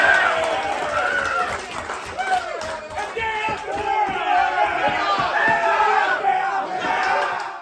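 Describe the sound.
Hockey players yell and cheer loudly in a group, celebrating their head coach's 200th win with overlapping shouts and whoops that keep surging in bursts throughout.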